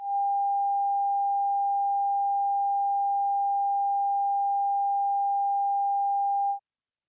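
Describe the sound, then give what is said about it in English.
A steady 800 hertz sine test tone holds one unchanging mid pitch at constant loudness for about six and a half seconds, then cuts off into silence. “The first sound, sound G, was 800 hertz.”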